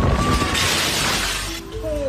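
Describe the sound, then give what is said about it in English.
Glass shatters and crashes down from a campus building during a storm with intense rain and wind, a loud, sustained burst of breaking glass, with a voice briefly at the end. “The video shows the officer hunkered down amid intense rain and wind when the glass comes crashing down just feet from his feet.”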